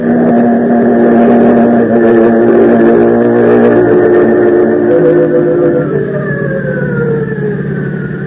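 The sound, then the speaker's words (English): A car engine drones loudly at a steady, strained pitch, then its tone slides downward over the last couple of seconds; no voices are heard. “Put your foot all the way down in the gas.”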